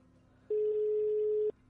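Telephone ringing tone on an unanswered call: a single steady mid-pitched tone lasting about one second, set between quiet stretches of faint line hiss.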